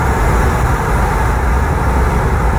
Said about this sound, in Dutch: Dit is het geluid van het raam dat een klein stukje open staat en we rijden hier in Frankrijk over de snelweg.